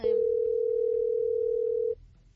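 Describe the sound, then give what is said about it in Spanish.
Ringback tone of an outgoing telephone call: one steady, mid-pitched electronic tone holds for about two seconds, then cuts off, leaving faint background noise. “Ahí está sonando, vas a ver si lo contesta.”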